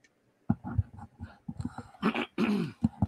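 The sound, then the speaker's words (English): Someone clears their throat in a few rough, guttural rasps and harsh bursts. The sounds come in uneven succession with short silent gaps, fairly loud against an otherwise quiet background. “sorry, I had to clear my throat a little bit.”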